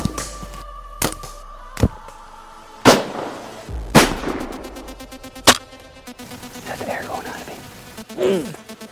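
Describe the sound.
Rifle shots during a buck hunt ring out as a few sharp, loud cracks with short decaying tails, spaced irregularly among lighter clicks, with people talking briefly near the end.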